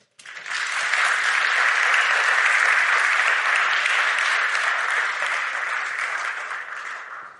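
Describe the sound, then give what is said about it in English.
A church audience breaks into steady applause that rises quickly, holds as an even wash of clapping, then tapers off toward the end. “Let's give them a hand.”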